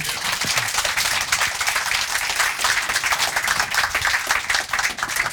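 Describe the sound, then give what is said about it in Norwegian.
Applause from an audience welcoming a journalist and crime novelist to a live talk event: many hands clapping in a busy, crackling texture that stays loud and even across about five seconds, without talk. “Gir en stor applaus.”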